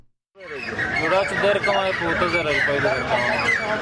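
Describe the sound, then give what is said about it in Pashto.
Chickens and other fowl cluck and call in a dense, continuous chorus at a city bird-selling market in Khost, where caged birds are traded at a weekly Friday fair. Overlapping calls stay loud and steady throughout. “دا په خوست ښار کې د مرغانو د خرڅلاو مارکیټ دی.”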